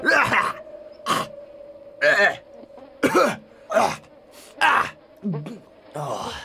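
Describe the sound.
Repeated harsh, raspy coughing and throat clearing from someone trying to dislodge antelope fur stuck in the throat, in uneven bursts with strained groaning sounds between them.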